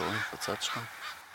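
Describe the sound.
A few harsh crow caws from birds in a tree across the street, loud and repeated in short bursts, with a person talking over them.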